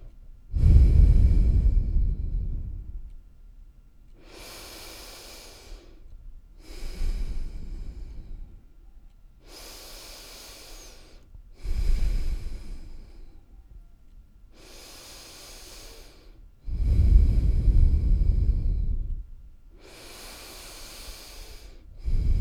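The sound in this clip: Slow, deep breathing taken together, several long airy inhales and exhales in a loose rhythm, each a soft hissing swell separated by quiet pauses.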